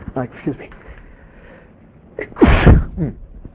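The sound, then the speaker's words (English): A single loud sneeze bursts out after a stretch of someone speaking, sharp and breathy with a quick onset, fading away as talk resumes. “as Mike said, that's now going to, for the next 1,000 years, people will be able to hear my sneeze.”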